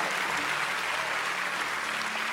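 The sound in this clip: A church audience applauds in a steady, even patter of many hands clapping. The sound stays uniform in level throughout, with no clear voices rising above it.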